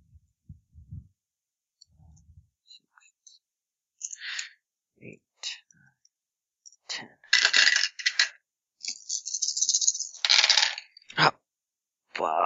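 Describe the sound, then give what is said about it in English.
Ten dice clatter across a surface during a tabletop role-playing game, with many sharp plastic clicks and rattles in scattered bursts, growing busier and louder toward the end. “So you're rolling 10 dice.”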